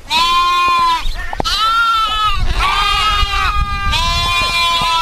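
Hand-reared lambs on a farm bleat loudly while being bottle-fed milk during a drought. Several overlapping, wavering bleats follow one another with short gaps.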